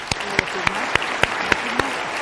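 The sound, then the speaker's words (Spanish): An audience at a book presentation honoring a bishop applauds, heard as sharp, evenly spaced claps in a steady rhythm over a soft, continuous wash of sound. “Y yo creo que podemos dar un fuerte aplauso”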